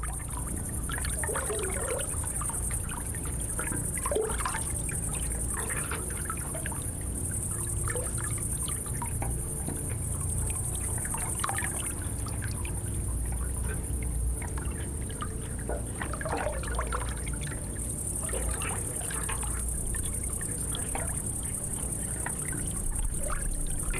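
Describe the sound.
Water flows through six-meter pipes fed from a canal, a quiet, steady trickling and pouring wash that runs without a break.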